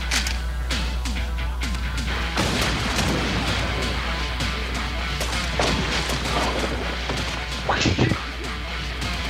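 Shotgun blasts and crashing impacts from an action film ring out as a few sharp, booming bursts over a dense, busy soundtrack and a steady low drone, the strongest burst coming near the end.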